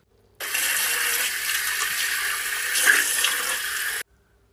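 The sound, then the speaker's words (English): Hands being washed with soap in a sink, with tap water rushing in a steady stream. The flow starts abruptly, holds at an even level for a few seconds, then cuts off. “Winnie washed her hands with lots of lovely bubbly soap and sang a song whilst she washed.”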